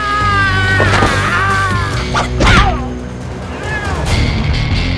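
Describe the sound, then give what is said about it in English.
Heavy thwacks and a crash in a film fight as a swung lamp knocks two henchmen down. A few loud impacts sit within a dense, continuous mix of tonal sounds. “Gino fights Hank with the lamp. The cord catches on another henchman's wrist, and the lamp knocks both henchmen down.”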